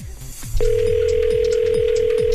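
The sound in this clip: A telephone rings out on a call to a mobile placed from a private line. A steady single-pitched tone starts about half a second in and holds to the end over a low, regularly repeating pulse.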